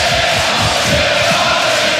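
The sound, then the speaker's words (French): Loud, steady roar of a rugby crowd of UBB and La Rochelle supporters in a stadium, a dense continuous wash of cheering and shouting. “On vous fait profiter un peu de l'ambiance. Qui a dit qu'il y avait que des Rochelais ici? Écoutez un peu.”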